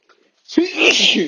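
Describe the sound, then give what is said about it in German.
A single loud sneeze from a person with hay fever or a slight cold: a faint breath, then a sudden explosive burst that trails into a brief, breathy spray. “Nicht erschrecken, ich muss gleich niesen.”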